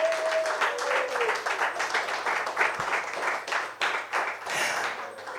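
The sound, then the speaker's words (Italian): An audience gives dense, continuous applause at a live storytelling event. The clapping stays loud and steady for about five seconds with slight surges. “Un applauso per il Teatro La Scala. E adesso un applauso per Rocktown.”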